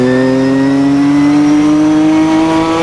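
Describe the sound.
Race car engine revving hard as the car climbs a hill on a track at Monterey, its clutch slave cylinder failing; a loud, continuous drone whose pitch creeps slowly upward, with no talk over it.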